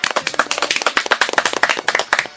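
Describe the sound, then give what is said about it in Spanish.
Audience applause for a guest on a show: loud, brisk clapping from many hands, a rapid stream of sharp claps that holds steady throughout with no voices. “Un aplauso para él también.”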